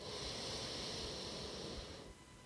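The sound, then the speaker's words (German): Breath drawn through the left nostril while the right one is held shut, a quiet, steady, airy hiss lasting about two seconds before it suddenly drops away. “Jetzt halte mal mit dem linken Zeigefinger das rechte Nasenloch zu und atme mal durch das linke Nasenloch.”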